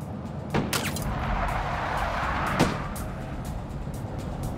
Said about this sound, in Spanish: Obligó al conductor a acelerar.